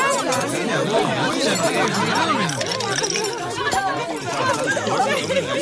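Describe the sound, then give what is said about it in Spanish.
Dinner-table chatter at an ordinary family meal, many voices overlapping in a steady, lively babble that fills the whole stretch without pause. “Seguramente estos te parecieron sonidos de una cena cualquiera”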